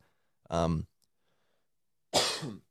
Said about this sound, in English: apologies for these coughs, ladies and gentlemen. But who knows, maybe my throat's going on strike.